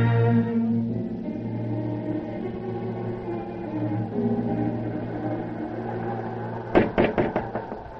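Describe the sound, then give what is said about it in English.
Quick series of several sharp knocks on a door of an old stone house in 1860s Philadelphia, set against a sustained low musical drone near the end. “a knock sounds at the door”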